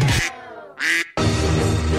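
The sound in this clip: Ducks quack in three loud, harsh, nasal bursts, the last one longer and more sustained, with no voices.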